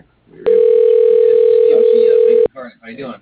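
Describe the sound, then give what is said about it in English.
A telephone line dials an office extension. A loud, steady electronic tone holds for about two seconds and cuts off abruptly, followed by a short stretch of talk. “press pound. Dialing Susie. Extension 6105.”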